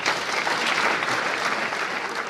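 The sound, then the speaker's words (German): Applause in the Swiss Federal Parliament building for a medal-winning young sports team: dense, steady clapping from many hands, continuous and evenly loud throughout without pauses. “Applaus und Schulterklopfen.”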